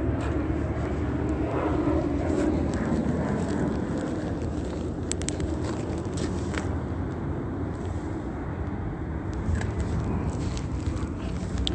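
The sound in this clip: Airplane flying over near Ontario airport, heard as a steady, broad engine roar that holds at an even loudness through the whole stretch, with no voices.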